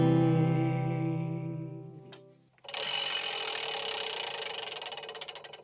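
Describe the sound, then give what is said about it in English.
A prize wheel spinning: a fast run of ticking clicks that gradually slow toward the end, after a sustained humming tone fades out. “So now to engage the Pop Oracle, I'm going to spin the Wheel of Eight.”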